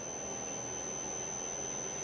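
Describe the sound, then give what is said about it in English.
High, steady electronic whine of a variable frequency drive running a compressor motor, a constant piercing tone over broad hiss that holds unchanged through the short clip. “That's the sound of a VFD. We've got revs! We've got revs!”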